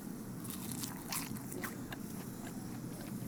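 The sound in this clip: Soft crunching bites and chewing into a golden, pan-browned Korean chijimi pancake dipped in sauce, crisp outside and chewy inside. A few faint crackly crunches sit over a low background hiss.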